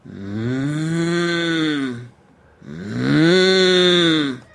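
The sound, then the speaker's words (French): A human voice imitates a mooing cow as a basic timbre exercise for steppe overtone singing. It gives two long, low, drawn-out moos separated by a brief pause, with the second slightly louder. “On imite la vache qui mugit.”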